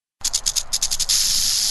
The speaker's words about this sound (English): Maybe you've never seen one in person, but everyone knows this sound. It's the sound of a rattlesnake. In this case, it's the sound of a northern Pacific rattlesnake,